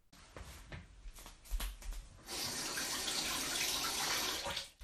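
Small mushrooms are washed under running tap water. A few faint knocks and handling sounds come first, then a steady, hissing stream of water starts and runs evenly before easing off at the end.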